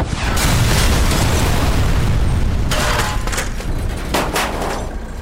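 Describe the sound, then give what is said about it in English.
Rocket-propelled grenade exploding against a Hummer: a loud, sustained rumbling blast with several sharper bursts cracking through it. “he pulled the trigger, sending the rocket to the Hummer down below. Oh shit! RPG! Get down!”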